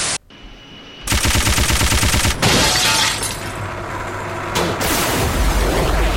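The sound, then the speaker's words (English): Machine gun fire in a video game rattles out in loud, rapid, continuous bursts, starting after a brief quieter moment and then holding as a dense, harsh barrage with only short dips in intensity. “Machine gun.”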